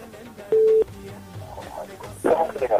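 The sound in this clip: A telephone line tone on a connected radio call-in, one short, steady mid-pitched beep, with people talking faintly before and after it.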